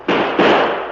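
Two sharp gunshots ring out in a radio drama, the second following closely after the first, each a loud, abrupt blast that decays slowly.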